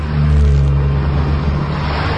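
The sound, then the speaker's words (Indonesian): Vehicles passing along a road: a steady, loud rumble of engine and tire noise, continuous and even, with no single pass standing out. “Hanya lalu lalang kendaraan yang melewati jalan itu.”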